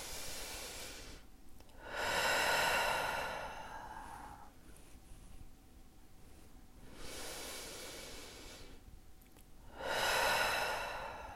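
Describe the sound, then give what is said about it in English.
A person takes slow, deep breaths: three long, airy swells of breath, separated by quiet pauses. The breaths are soft, and there is no talking. “So just take a couple of breaths.”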